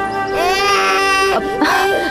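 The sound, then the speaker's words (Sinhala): A little boy crying in loud, drawn-out wails, two long sobbing cries separated by a brief catch of breath. “චූටි පුතේ ඇයි අඬන්නේ?”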